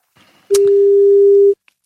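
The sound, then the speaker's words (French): A telephone ringing tone on a live call: a single steady, low-pitched tone lasting about a second, loud and alone, followed by silence. “Alors déjà on a une sonnerie, ça c'est plutôt pas mal.”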